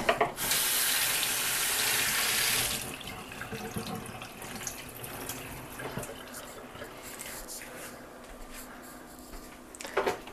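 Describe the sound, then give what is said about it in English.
Tap water runs loudly over a handful of fresh broccoli being washed in a sink for pizza making, a steady rushing stream for a few seconds that then drops to a softer trickle and light splashing, with no talk. “this is actually fresh broccoli that I'm putting on the pizza. And so just grabbing a little handful, and we're going to wash it.”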